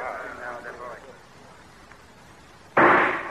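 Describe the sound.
A single loud gunshot is fired in a shooting contest. It comes near the end as a sharp sudden crack with a decaying tail, after a voice speaks and a short quiet pause.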